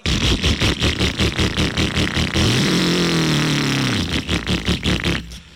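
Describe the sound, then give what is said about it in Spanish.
A motorcycle engine runs roughly with a loud, uneven sputtering and pulsing rhythm. Midway it holds a sustained rev, then falls back into choppy pulses. “Si la moto donde usted está está sonando así,”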